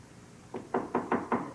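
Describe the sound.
Five firm knocks on a door in a 1968 stage play, struck in an even, moderately quick rhythm, each a dull wooden thud, alone with no voices.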